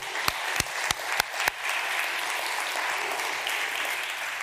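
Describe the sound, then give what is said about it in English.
Audience applause at a church Father's Day service, a steady wash of clapping that runs evenly throughout, with a few sharper individual claps standing out near the start. “Can we just give the dads a round of applause?”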